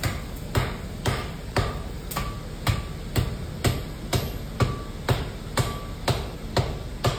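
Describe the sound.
A blacksmith hammers steel at a forge while making a tushker: many steady, evenly spaced metallic strikes, about two per second, each with a short ringing ping.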